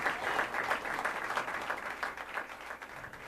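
Audience applause after a live jazz duo performance: a dense, even wash of many hands clapping at once, sustained at steady loudness throughout.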